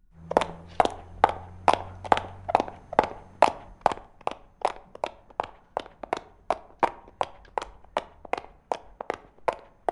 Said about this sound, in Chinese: 反正那个酒店离我家这么近，慢慢走路过去吧。